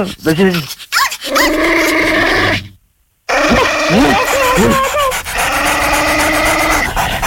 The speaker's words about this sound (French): Attention, je lâche le chien!